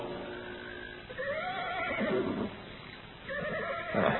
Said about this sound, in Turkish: At da kişneyip tepinmeye başladı.